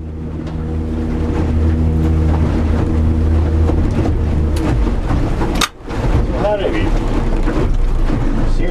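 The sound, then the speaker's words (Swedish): A motorboat runs out from Skelö toward a measuring point at sea, its engine a loud, steady droning hum with splashing hull noise, briefly dipping in level midway before resuming. “Vi kör sådär knappt tio minuter ut från Skelö tills vi kommer fram till mätpunkten.”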